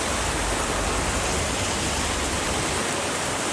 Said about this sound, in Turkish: Osmaniye'de sağanak yağış yolları göle çevirdi.